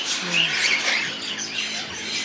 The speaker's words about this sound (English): that's why we have a lot of birds here